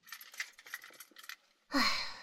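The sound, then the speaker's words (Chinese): Keys jangling: faint, scattered light metallic clinks followed by a brighter, louder rattling jingle near the end. “等一下，你的钥匙忘家里了。”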